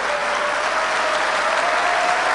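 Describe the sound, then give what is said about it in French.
Audience applause for Côte d'Ivoire: dense, steady clapping that stays loud and even for the whole stretch, with no pauses or voices over it. “Alors, applaudissez à la Côte d'Ivoire.”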